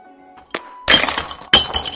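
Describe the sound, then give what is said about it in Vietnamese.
A series of crashing, breaking sounds in an audio drama: a couple of faint knocks lead into two loud shattering crashes, like glass breaking, each leaving a rattling, clinking tail. “Sau đó là một loạt tiếng đổ nát.”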